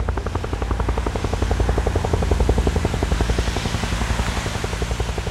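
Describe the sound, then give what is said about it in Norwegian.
A helicopter flying 200 meters above Utøya, its rotor chopping in a fast, steady, even pulse over a constant low engine drone, loud and unbroken throughout. “200 meter over Utøya flyr et helikopter.”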